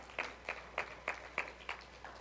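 Audience applause as slow, evenly spaced hand claps: seven distinct claps at a steady rhythm, faint and with no voices.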